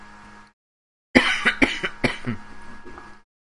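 A person coughs and clears their throat in a cluster of several harsh, rough bursts over about two seconds. The sounds are loud and heard alone, with no talk over them.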